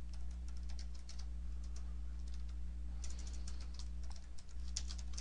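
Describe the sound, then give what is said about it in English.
Keystrokes tap out code on a computer keyboard in quick, irregular bursts of light clicks. A short pause separates two runs of typing, and a faint steady hum sits underneath. “let's go ahead and just write a little bit of code. So I'm going to start with a using statement.”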